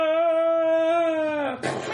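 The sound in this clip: A voice imitates the scream of someone drop-kicked off a balcony in a tabletop role-playing game: a loud, sustained, high cry that holds steady, dips near the end, then breaks into a short noisy rasp.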